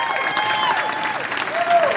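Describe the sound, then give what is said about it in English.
Applause from a conference audience: many hands clap steadily for about two seconds, with voices cheering and calling out above the clapping. “Let's give our team a big hand clap.”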